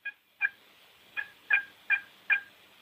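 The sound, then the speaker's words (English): A soft turkey tree call made on a box call: six short, raspy yelps, quiet and high-pitched, spaced unevenly with brief silences between them. “One of the first sounds I make to him is what we call a tree call. I'm doing this on the Laverne box, just real soft.”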